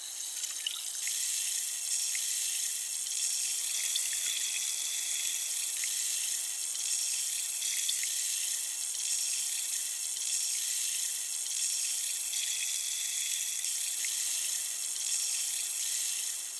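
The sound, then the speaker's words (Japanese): Fizzing bubbles while washing: a steady, high-pitched hiss of effervescence with faint crackling pops scattered throughout, continuous and even in loudness, with no talking. “何よりこの音がとても心地いいですよね。シュワシュワと弾ける音、”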